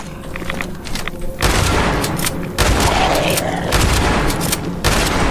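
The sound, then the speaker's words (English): Pistol and shotgun gunfire in a video game: a few sharp blasts at first, then dense, loud, overlapping bursts of shots that keep going to the end. “Let's try this pistol. That works all right. I think the shotgun might be better.”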